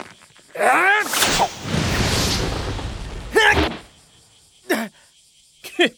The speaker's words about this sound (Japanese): どこ見て振ってなんだ。ボールとバットが1メートルも離れてたぜ。